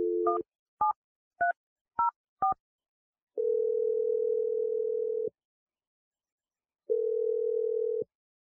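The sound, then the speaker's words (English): A telephone number is dialed: five short keypad tones, each at a different pitch, followed by two long, steady, low tones separated by a pause, clear against silence. “We're going to dial Adam's number right now.”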